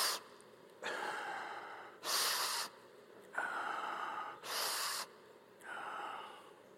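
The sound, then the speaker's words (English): A voice imitates a 9-year-old boy's laboured breathing: a series of harsh, noisy gasping breaths, strained in- and out-breaths following one another with short pauses, with no words spoken. “this is the way he would breathe. He's 9 years old. He'd go,”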